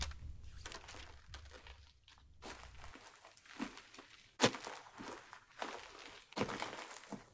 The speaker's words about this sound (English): Their feet scuffed the dirt as they walked along the path.